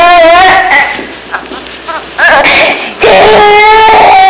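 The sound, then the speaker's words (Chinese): A baby girl crying in a hospital maternity ward: loud, wavering wails in several bursts separated by short breaks, with no talk over them. “你把我的女儿给吓哭了。乖女儿，别哭啊”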